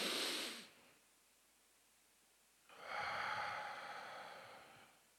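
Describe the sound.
Deep, slow breathing in and out, guided as a calming exercise: a short airy breath, a silent pause, then a longer breath of about two and a half seconds, all quite faint.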